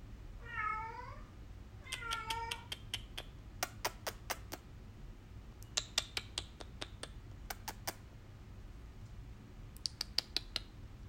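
A cat meows twice, short and high, near the start. A quick run of sharp, light clicking taps follows, like keys on a keyboard, with low steady background hum throughout.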